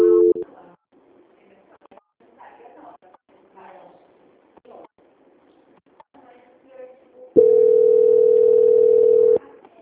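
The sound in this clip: A steady single-pitch telephone tone, the signal of a call being transferred, sounds for about two seconds near the end, after a stretch of faint, quiet talk.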